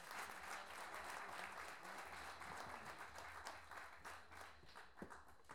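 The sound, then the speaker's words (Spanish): Audience applause at a national improvised-verse competition: dense, continuous clapping filling the whole stretch, fairly quiet and steady, with no talk over it. “Aplausos.”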